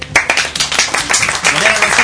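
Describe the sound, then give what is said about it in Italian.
Studio clapping on a late-night radio show, celebrating love around Valentine's Day: sharp, irregular hand claps mixed with voices talking over them at a lively, loud level. “Grazie, lo so, applauso per l'amore.”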